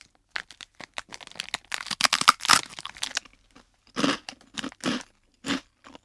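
Crunching bites into a sweet topped with a sugary coating: a dense run of crisp, crackling chews that thins out into a few separate, louder crunches, with no talking.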